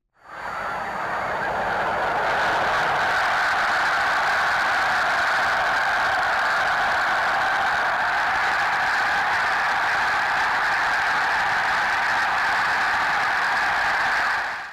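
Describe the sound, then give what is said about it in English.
A huge flock of snow geese wintering on the Chesapeake Bay calls all at once, a dense, loud clamour of overlapping honks that fades in and then holds steady without a break. “If you guessed snow geese, you're right.”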